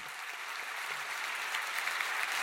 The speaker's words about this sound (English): That applause is from last Thursday for someone who's not-so-hard-won erudition still necessitates a confession.